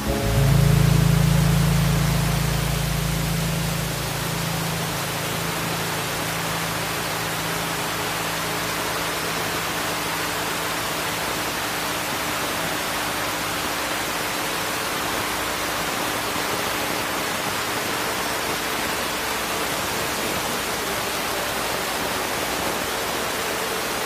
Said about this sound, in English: crashing water in my ears eclipsed everything. It sounded like